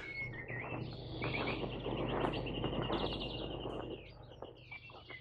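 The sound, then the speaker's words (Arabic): Sparrows chirping around a garden by a pergola: many overlapping bright chirps and tweets form a steady chatter that runs through the whole clip, slightly fuller in the middle and easing toward the end. “العصافير حواليك كتير قوي”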